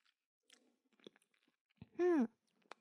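Chewing on nian gao, a sticky Chinese rice cake: a few soft, scattered chewing sounds, with one brief voiced hum in the middle.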